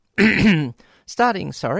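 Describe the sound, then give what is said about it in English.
A radio presenter clears his throat on air, one short gruff burst followed by a voice. “why is it, no matter how much one clears their throat before you come on air, it wants to come back when you're on air.”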